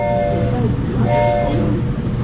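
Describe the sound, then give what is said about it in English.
Low, steady rumble of the 611 steam locomotive running on rails during an excursion from Staunton through the Blue Ridge Tunnel to Afton, at about 40 mph. Faint tonal humming lines sit above the continuous churning noise. “On this trip, from Stanton through the Blue Ridge Tunnel to Afton and back again, the 611 tops out at about 40 miles per hour.”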